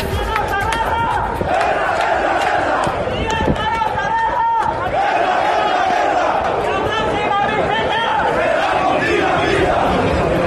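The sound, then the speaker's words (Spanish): Navantia Puerto Real shipyard workers in Cádiz protest over a lack of work orders. A loud, dense crowd shouts and chants continuously, with scattered sharp higher-pitched sounds cutting through the din. “Este era el sonido de la manifestación.”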